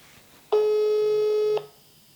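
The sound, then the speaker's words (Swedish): Telephone tone as a call is placed, one steady electronic beep lasting about a second, rising sharply out of faint background noise and cutting off cleanly. “Jag slår dig en signal, har du tid en stund?”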